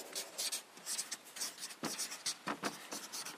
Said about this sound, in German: Ich schreibe hier mal drüber gerechtes Gericht.